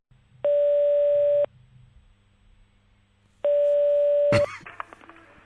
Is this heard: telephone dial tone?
yes